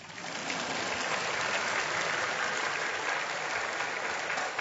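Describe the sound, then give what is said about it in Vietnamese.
Church audience applauding: dense, continuous clapping that builds within the first half second, then holds steady and fairly loud until the end, with no voices standing out. “Vỗ tay là để tạ ơn Chúa chứ không phải để khen tôi đâu.”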